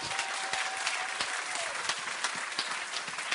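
A church audience applauds to acclaim Jesus, with steady, dense clapping sustained at an even level throughout.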